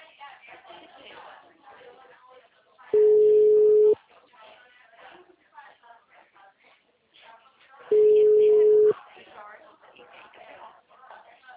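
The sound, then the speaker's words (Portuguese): Telephone line tone after a dropped call: two steady, loud beeps, each lasting about a second and spaced a few seconds apart, with a voice talking before, between and after them. “Alô? Oi? Alô? Ivan? Oi? Caiu a ligação ou o senhor desligou? Caiu!”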